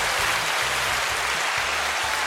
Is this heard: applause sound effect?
yes